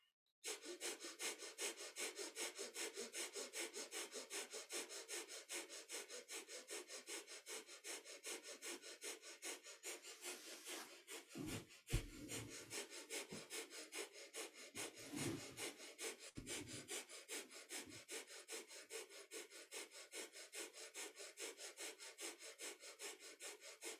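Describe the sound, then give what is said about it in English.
Someone does bellows breath, forcing air rapidly in and out through the nose. Many quick, even, hissing pulses repeat in a fast rhythm, softly and on their own, for over twenty seconds with hardly a break. “But actually with the bellows breath, it's easier to go quickly.”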